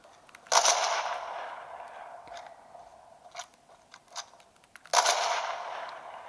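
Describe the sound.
Gunshots in a video game: two loud, sharp blasts with long, ringing tails, separated by several smaller clicks and knocks.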